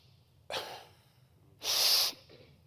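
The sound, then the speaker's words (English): A man's voice imitates a 10-year-old boy's labored, struggling breathing. A brief sharp gasp comes first, then a longer, louder raspy hiss of breath, with quiet between them. “he kind of throws his head back, and it's a struggle for him to get the air in his chest. I'm not making fun. That's the way he breathes.”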